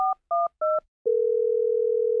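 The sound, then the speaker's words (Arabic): Telephone keypad dialling on an international call between Stockholm and Iceland: three short two-tone beeps in a quick, even rhythm, then a long, steady single tone that holds at the same pitch to the end. “لقد كانت مكالمة استثنائية بين ستوكهولم وأيسلندا. أمينة سر جائزة نوبل ترفع السماعة لتزف الخبر السعيد للشاعرة الكندية آن كارسون”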